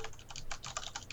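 Typing on a computer keyboard while looking something up: rapid, quiet keystrokes clatter in a quick, uneven stream.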